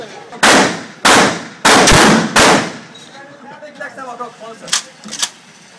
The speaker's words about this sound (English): And I noticed I am amazing with a shotgun. Oh, all right, yeah. Hell yeah. I should play the clip.